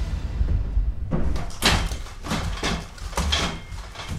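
Someone forcing a way through a barricade built just inside a studio door: several heavy door bangs and rattles in an irregular rhythm, moderately loud, with a low rumble between the blows.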